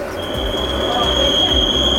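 A passenger train travels on a newly modernised line in the Nowy Sącz area of Lesser Poland. The steady running rumble carries a constant high-pitched whine and soft, low, rhythmic thuds beneath.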